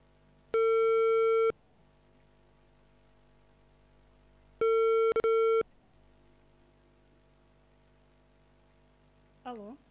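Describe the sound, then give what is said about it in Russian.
Telephone ringback tone while calling a subscriber: two steady, loud tone bursts of about a second each, separated by several seconds of quiet line hum, with a voice just starting at the very end. “Начинаем звонить абоненту. Ожидайте соединения.”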